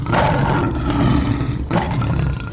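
A lion's roar used as a story sound effect: a loud, sustained, growling roar that breaks briefly and then surges again, with no speech over it.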